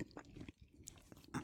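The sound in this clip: Faint chewing of bread, eaten to clear a lingering cheese taste. Soft, irregular crackles and clicks of mastication, louder near the end.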